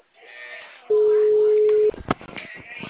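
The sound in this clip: A telephone ringback tone plays while a call is placed: one long, steady, mid-pitched beep lasting about a second, rising out of and falling back into continuous background noise.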